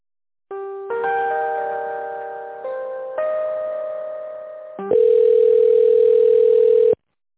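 A telephone line plays tones while a call is being transferred. Several sustained chime-like tones step between pitches, then a louder steady tone holds for about two seconds and cuts off.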